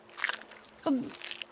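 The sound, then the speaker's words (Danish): A short, crisp bite into a chocolate thigh, with a quick crunchy snap near the start and a softer follow-through, fairly faint overall. “Han tok en bit av låret sitt og prøver å gi til oss.”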